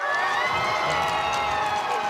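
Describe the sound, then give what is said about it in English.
Huge crowds cheer Pope Leo at the royal palace in Madrid, a dense roar of voices with shouts and whoops rising through it at a steady, loud level. “huge crowds welcomed Pope Leo at the city's royal palace today.”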